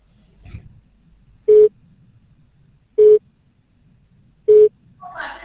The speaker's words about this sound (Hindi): Number you have dialled is currently busy और not reachable at this time, please try later.